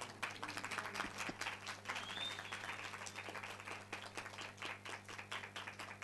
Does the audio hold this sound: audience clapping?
yes